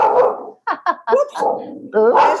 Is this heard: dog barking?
yes

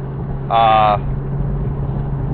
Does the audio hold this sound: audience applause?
no

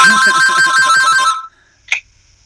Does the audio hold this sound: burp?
no

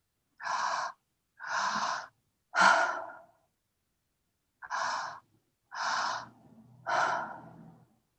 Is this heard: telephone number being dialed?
no

